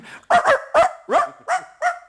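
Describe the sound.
A voice imitates a dog barking: six short, loud, yelping woofs in a quick, fairly even rhythm, with nothing else heard between them.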